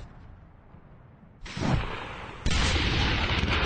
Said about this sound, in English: As you can hear, the war scenario is well underway. You can hear snipers, there's artillery,